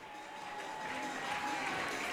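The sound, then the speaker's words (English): Baseball crowd applauding a two-run home run that gives the Raptors an early lead, a faint, steady wash of clapping and crowd noise that holds at an even level throughout. “And receiving high fives and all the applause from the crowd as the Raptors lead 2-0”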